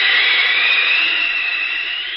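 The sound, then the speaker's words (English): A whooshing flight effect for a flying superhero: a steady, loud, airy roar like a jet rushing past. It holds evenly throughout and eases off slightly at the end, with no voices. “Look, up in the sky. It's a bird. It's a plane. It's Superman.”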